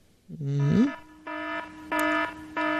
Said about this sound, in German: Spoiler-Alarm. Weiterhören auf eigene Verantwortung.